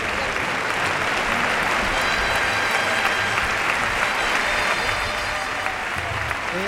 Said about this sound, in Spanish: Y se lleva la ovación del público.